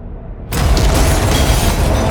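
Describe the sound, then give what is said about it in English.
Grenade explosion after the grenade is thrown into a bathroom: a low rumble gives way to a sudden, very loud blast that stays as a dense, sustained roar to the end. “He hurls the grenade into the bathroom, then dives to the floor.”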